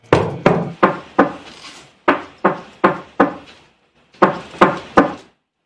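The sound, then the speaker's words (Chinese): Someone knocks firmly on the front door of a home in three rounds of four, four and three sharp raps. Each rap has a short resonant decay, and brief pauses separate the rounds. “他硬着头皮敲门，却久敲不开。”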